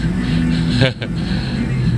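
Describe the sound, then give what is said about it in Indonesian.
Steady engine drone and rumble of dense, slow-moving road traffic at night, a continuous low hum of idling and creeping cars with no distinct passes, holding an even level throughout. “Oke, video sepanjang 33 detik. Yang menunjukkan arus lalu lintas cukup padat, jalan pelan.”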